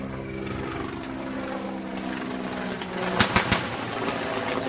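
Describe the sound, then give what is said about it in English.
Heavy machine gun fire from Libyan forces in Tripoli: a few sharp cracks and short bursts, bunched near the end, over a steady low droning hum. “What you're hearing there is sound from our partner, the BBC, that is heavy machine gun fire from Libyan forces in the capital.”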